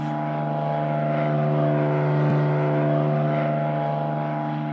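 An airplane flies overhead with a steady, droning hum and layered engine tones, swelling slightly at the middle and easing off again, with no voices.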